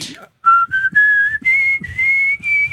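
A person whistles a song melody in clear, bright notes, about six sustained tones that step upward in pitch, loud and close.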